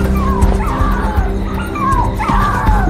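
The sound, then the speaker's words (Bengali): Puppies yelp loudly after dropping onto a courtyard floor, giving a few shrill, wavering cries and whimpers over a dense, noisy background of bumping and scuffling. “কুকুরের বাচ্চা, সেগুলো মাটিতে পড়েই তারস্বরে চেঁচামেচি শুরু করে দিল”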